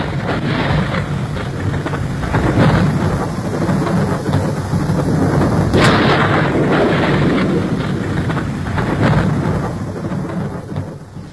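Pouring rain and a thunderstorm on a muggy night: a loud, dense, continuous hiss of heavy rainfall with low thunder rumbling underneath, steady throughout with no pauses.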